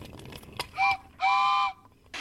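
Toy train locomotive sounds off with whistle-like toots: a short hoot, then a longer sustained one, each bright and steady in pitch, over faint background rustle and a closing noisy burst.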